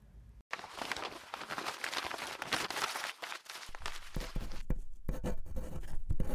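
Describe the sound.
A pen scratching continuously as letters are written by hand on paper, with a dense rustling texture that varies in intensity and a brief pause near the start.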